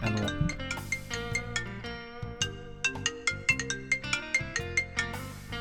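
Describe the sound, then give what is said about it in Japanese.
A mobile phone ringtone plays a bright electronic melody of many quick, chiming notes in a steady rhythm, alone and without any voices. “この間電車の中で、どこからともなく着信音が聞こえてきたんですよ。あれですよ、”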